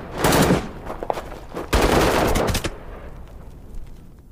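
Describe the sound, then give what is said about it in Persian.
Gunfire in a radio drama gunfight: loud, dense bursts of rapid shots early and again near the middle, with scattered single cracks between and the firing thinning toward the end, no talk. “دیاکو ابو رحمان راننده ابو خالد رو زد. تیر تفنگ ابو خالد به بازوی دیاکو اصابت کرد.”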